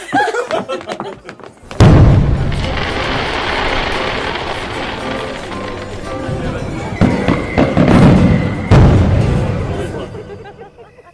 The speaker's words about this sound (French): Après le bal... il y aura un feu d'artifice.